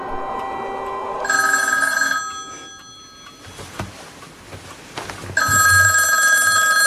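A telephone rings in two loud bursts of bright, steady electronic tone. Between them comes a quieter gap with a few faint scattered knocks and rustles. The second burst runs to the end.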